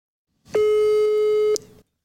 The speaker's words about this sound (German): Du telefonierst schließlich mit jemandem. Ich hoffe, du machst auch zu, aber den Ton laut, genau.